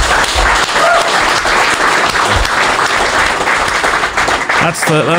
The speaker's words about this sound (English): That's the sound of 1,500 people in a room.